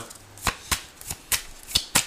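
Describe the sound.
A deck of tarot cards being handled gives a string of crisp, dry slaps and flicks, several sharp papery hits spaced unevenly at a moderate pace, with quiet gaps between them.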